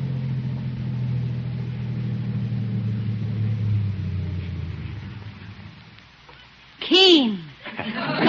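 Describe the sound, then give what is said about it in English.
A car rolling up and making a smooth stop: a low engine rumble runs steadily, then fades as the car comes to rest, and a short voice sound follows. “In a car this color? Yes. Now, watch how smoothly it stops.”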